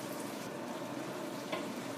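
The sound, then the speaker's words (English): Stock being added a little at a time to a mixture bubbling at a gentle simmer in a deep casserole frying pan: a continuous soft hiss and sizzle with fine bubbling, steady throughout, with one slightly louder moment near the end. “Just a little at a time, and this mixture's bubbling constantly, but it's on just like a slow, it's not a real fast boil.”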